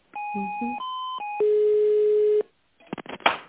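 Telephone tones while a call is placed: steady electronic tones that step between a few pitches, then a longer unbroken tone. It cuts off abruptly and is followed by brief faint clicks and rustling.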